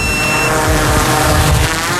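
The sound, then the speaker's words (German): Steady buzzing whine of a rescue drone used to search fields for fawns as it takes off and flies, a dense continuous hum with layered tonal harmonics at even loudness and no talk. “Fluggerät fliegt zum Haltepunkt.”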